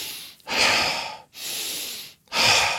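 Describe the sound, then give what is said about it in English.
Deep breathing in and out during a relaxation exercise, three long, airy breaths in turn, each swelling and fading with brief pauses between, loud and close with no talk. “then breathe in fully and exhale deeply”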